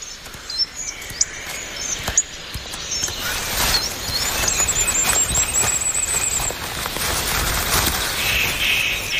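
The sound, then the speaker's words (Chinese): Crisp snapping of a spruce twig as a male wood pigeon breaks it off for its nest: a few brief sharp cracks over faint rustling, with small birds chirping in the background. “一只雄性斑尾林鸽折断了一根云杉细枝，它在收集树枝和叶子，建造一个对于繁衍而言很重要的东西——鸟巢。”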